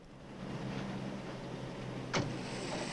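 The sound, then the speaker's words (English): A Ford Mustang pulls up with a steady, mid-pitched engine hum, broken near the end by one brief sharp click. “Frank pulls up in his Mustang. He gets out.”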